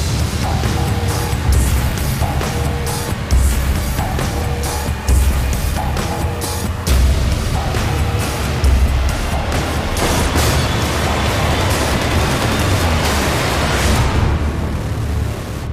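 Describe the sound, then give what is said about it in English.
Trailer audio for the film Sabotage plays as a loud, dense roar of booming low impacts and crashing bursts, sustained without a break throughout. “All right, so you just watched or listened to the trailer for Sabotage,”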